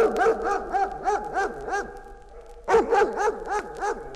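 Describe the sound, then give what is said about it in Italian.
Dogs barking in two rapid bursts of sharp, evenly spaced barks, separated by a short pause. The barks are loud and clear, with no talk. “salivano fianco a fianco i cani”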